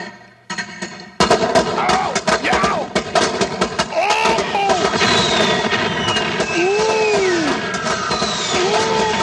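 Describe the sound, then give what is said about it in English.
A whole brick of firecrackers explodes in a dense, loud run of rapid cracking bangs that goes on and on, while voices shout over the racket. “All right, I got the brick of firecrackers. Right, so I'm going to light this whole brick of firecrackers”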